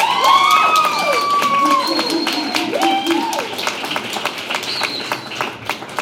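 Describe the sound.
An audience claps and cheers to welcome the two student hosts of a campus late-night talk show about the environment. Scattered sharp claps sound under rising whoops and shouted voices from the crowd.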